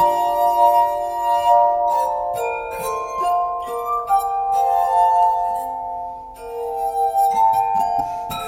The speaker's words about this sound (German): Musikliebhaber aus der Zeit um 1800 vergleichen den Klang der Glasharmonika oft auch mit der menschlichen Stimme.